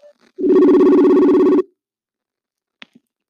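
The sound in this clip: A telephone ringing while a call is placed back: one long, loud, steady ring tone, followed by a faint click shortly after it ends.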